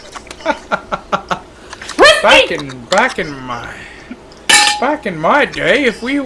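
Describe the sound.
Ice cube trays being handled: a run of sharp, clattering knocks and clinks, then strained, drawn-out vocal sounds from a person mixed with further clatter.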